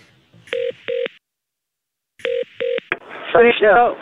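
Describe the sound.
Touch-tone keypad beeps as a telephone is dialled to call hotel reception: two evenly spaced pairs of short electronic beeps separated by a pause, then a quick fifth beep before a voice starts talking.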